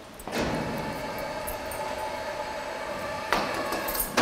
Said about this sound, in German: Die Zwischenwand wird geschlossen